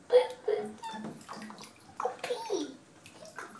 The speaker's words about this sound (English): Are you in the water? Are you taking a bath?